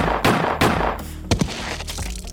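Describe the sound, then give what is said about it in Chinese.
Pistol shots fired in quick succession, several sharp, loud bangs with decaying tails, irregularly spaced, with no voices. “就在我看到我哥的时候，我毫不犹豫地拔出手枪，直接精准地在他的额头正中央接连开了三枪。”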